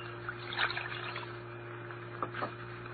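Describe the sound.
Glass medicine bottles being washed with water in a pantry: faint splashing and trickling with a few small sloshes, over a steady low hum.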